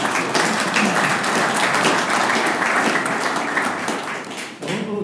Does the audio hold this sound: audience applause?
yes

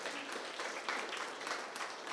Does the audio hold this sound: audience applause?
yes

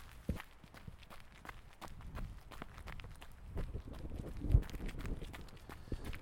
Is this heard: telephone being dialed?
no

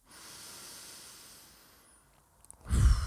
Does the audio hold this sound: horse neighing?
no

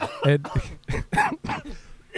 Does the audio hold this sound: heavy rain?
no

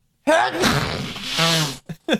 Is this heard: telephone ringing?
no

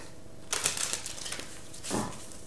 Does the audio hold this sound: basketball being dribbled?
no

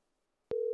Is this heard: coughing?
no

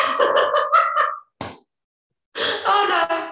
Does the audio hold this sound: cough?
no

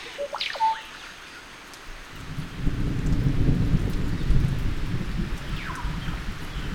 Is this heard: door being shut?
no

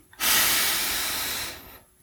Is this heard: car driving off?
no

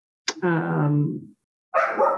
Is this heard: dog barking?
yes

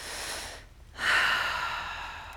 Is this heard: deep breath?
yes

